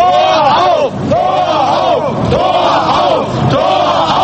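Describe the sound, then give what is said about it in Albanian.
A West German crowd shouts for the Berlin Wall to be opened in 1989. The loud massed voices repeat a rhythmic chant several times, each call swelling and falling, with crowd noise continuing between them. “Ishin këto thirrjet e gjermanoperëndimorëve duke thirrur hapen e murit.”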